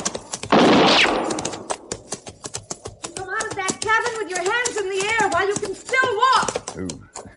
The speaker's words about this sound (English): I found a woman who appeared to be in her middle 30s busily firing a rifle at a shack that stood some 100 yards beyond me.